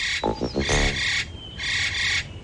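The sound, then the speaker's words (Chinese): Magpie calling with harsh, raspy chattering: two scratchy bursts separated by a short pause, fairly loud and alone. “这个鸟的叫声好熟悉啊。 这叫喜鹊，专吃害虫的一鸟。”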